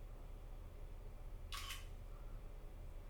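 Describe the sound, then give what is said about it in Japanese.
Camera shutter firing once as a photo is taken: a single brief, bright mechanical click over a steady low hum. “ツイッターにアップするぐらいは大丈夫だろう。写真撮ろう。”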